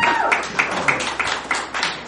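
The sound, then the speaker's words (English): Applause for the volunteers at an evening show, heard as sharp, evenly spaced claps about three per second, giving a rhythmic, tapping pattern rather than a dense roar. “Thank you, volunteers. Give yourselves a round of applause.”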